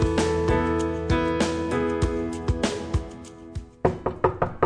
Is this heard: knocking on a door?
yes